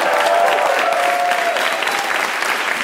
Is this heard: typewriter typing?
no